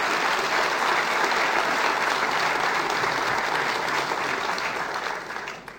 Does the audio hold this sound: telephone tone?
no